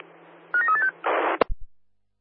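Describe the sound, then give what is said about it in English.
Keypad tones of a landline telephone being dialed: a quick run of several short, clear beeps over a low hum, then a harsh burst of hiss and a sharp click before silence. “Is it possible to dial from landline, over? Yeah, received. I'll give it a go.”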